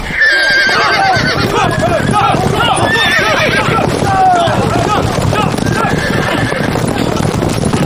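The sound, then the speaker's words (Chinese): A horse whinnies repeatedly in loud, wavering cries while hooves clip-clop steadily underneath, the two sounds dense and continuous throughout. “上马！上马！ 好！ 下马！ 虎！ 马蹄声起！”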